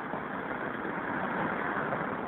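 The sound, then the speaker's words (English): Traffic passes a payphone on the curb at Northern Boulevard and 41st Street, a steady, even rumble of engines and road noise with no distinct individual vehicles standing out. “It's my favorite kind of payphone. Like out in traffic, practically in traffic, right on the curb. Northern Boulevard and 41st Street.”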